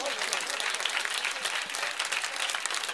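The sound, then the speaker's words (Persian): An audience claps for a couple of sung verses: a loud, continuous patter of many hands that stays dense and even throughout, with no single claps standing out. “حالا اونی که خوب دست زد برای اون دوتا بندی که من خوندم”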